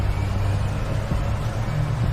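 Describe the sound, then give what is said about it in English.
Steady low engine rumble from a car speeding ahead of a city bus, a constant droning hum with no clear pass-by and no voices. “She speeds ahead of a city bus.”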